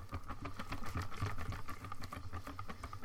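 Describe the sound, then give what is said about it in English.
Crepe batter is whisked in a bowl while it is still liquidy with floating bits of flour. The whisk gives a steady, fast, rattling rhythm of scraping clicks that runs without a break and with no talk. “Nice to see that the whisking is coming through stronger than my voice.”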